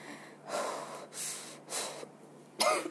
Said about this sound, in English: Sorry, breathe in too hard.